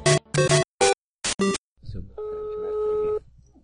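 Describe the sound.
A telephone dials a number with a quick run of short, bright keypad beeps. A brief noisy pause follows, then a steady, unbroken tone holds for about a second.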